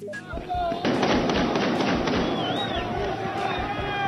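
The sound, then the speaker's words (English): Celebratory gunfire fired into the air in Tripoli, Libya, as rebels take the capital: many sharp, rapid shots and thuds crackle over a steady wash of background noise, with voices audible throughout. “Most of that firing is in the air, that audio from our partner, the BBC,”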